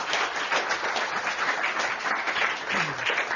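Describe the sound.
An audience welcomes a speaker with applause: a dense, steady wash of many hands clapping at an even level throughout.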